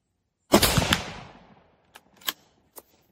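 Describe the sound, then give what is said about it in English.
.30-06 rifle round fired at a 2-inch by 2-inch steel plate 100 yards away: one loud, sharp crack with a long decaying tail, followed by a few fainter clicks. “let's see what happens if we shoot that round at steel.”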